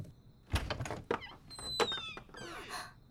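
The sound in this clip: A door being opened, heard as a few soft knocks and rattling clatters with faint creaking, fairly quiet overall and with no talk.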